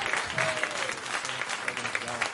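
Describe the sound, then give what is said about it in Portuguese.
A standing church audience applauds to welcome a preacher, a steady, joyful clapping at moderate loudness with a continuous texture of many hands throughout. “Vamos receber o servo do Senhor com palmas bem alegre para Jesus.”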